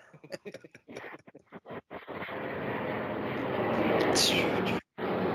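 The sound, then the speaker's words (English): An airplane passes close by near an airport, recorded outdoors: a broad, steady roar swells over a few seconds and dominates the end, with voices talking briefly at the start. “What the hell is that? That is, I live right next to an airport.”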